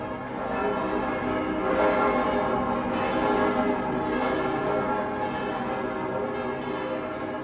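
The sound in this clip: Church bells peal in an old archive recording, their dense, overlapping ringing tones blending into a continuous wash of sound at a fairly even loudness.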